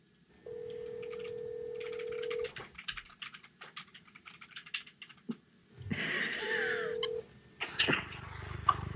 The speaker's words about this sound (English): I'm calling him right now. Here we go. No. All right, we're dialing.